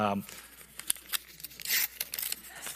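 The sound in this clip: An envelope is torn open: a quick series of rasping paper rips and crinkly rustles. A brief voice is heard at the very start.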